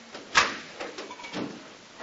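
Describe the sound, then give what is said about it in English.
A door is unlocked and opened by its handle: a sharp metallic click-clack is followed about a second later by a softer clunk, both faint over a low background hiss. “Here, in fact, let me help you go through the door. Here, put your hand on the handle right here. Okay? Look, you got to unlock it.”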